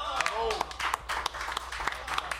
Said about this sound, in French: Approche, oui, approche. Oui, ici, on l'applaudit!